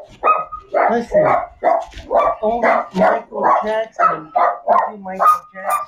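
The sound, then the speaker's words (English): Dogs bark steadily in many evenly spaced, full-voiced barks with a few yelps among them. A person talks over the barking. “Sorry about the dogs here in hell.”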